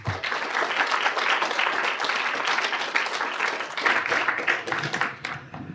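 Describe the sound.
Audience applause welcoming a speaker to a university talk: dense, continuous clapping from a crowd, holding steady for about five seconds before thinning out at the end.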